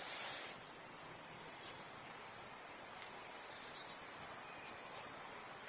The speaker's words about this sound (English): Do you hear the wind rising?